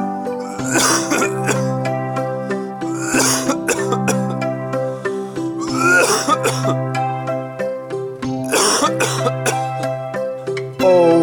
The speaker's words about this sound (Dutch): Steeds hoesten.